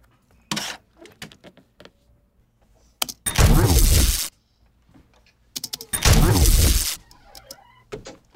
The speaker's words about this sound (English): That's a rifle I recorded, so I will use that one.